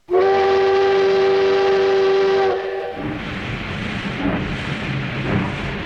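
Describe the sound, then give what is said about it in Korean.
A train whistle sounds as one long, loud, steady tone for a couple of seconds, then gives way to the rumbling, clattering noise of the train travelling along the track. “무조건 일단 부로 향하는 기차에 몸을 싣는 김유신과 백석 그리고 낭도 일리.”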